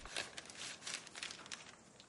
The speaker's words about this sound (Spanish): Lo introduce en un sobre de papel y lo cierra.